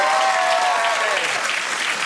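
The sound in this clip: Studio audience applause greets a TV talk show guest, a dense, steady burst of clapping at constant loudness.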